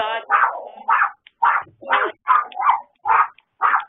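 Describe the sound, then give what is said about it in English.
Dogs bark over a phone line in a string of eight sharp, tonal yaps with short gaps between them, thin and band-limited. “Whoever dogs those are, could you mute your line?”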